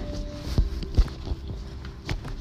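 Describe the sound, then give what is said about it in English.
Footsteps of someone walking, a few soft, irregular thumps over a steady background hum. “Still walking.”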